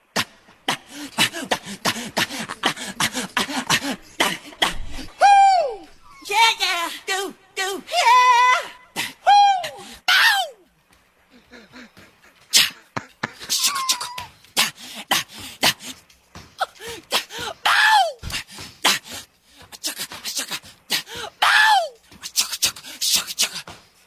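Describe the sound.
A singer's grunts, sighs and wordless vocal noises edited from pop records, strung together as many short bursts of yelps, breathy huffs and high gliding whoops separated by brief silent gaps.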